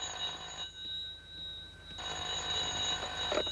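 A telephone rings in two bursts of steady, high electronic trilling, separated by a quieter pause, with no voices over it.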